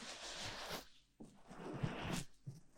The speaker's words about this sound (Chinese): 当然要先给您擦擦脸啦，用温热的毛巾擦过您的脸，